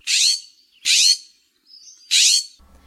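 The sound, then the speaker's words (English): Birds calling in a park: three loud, high, raspy chirping bursts at uneven intervals, with a fainter thin whistled note between the second and third, and quiet gaps between calls. “Here is also a good spot to look for birds. Some of the more common birds you'll see and hear at Placerita Park are scrub jays,”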